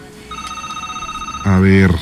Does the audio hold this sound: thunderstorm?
no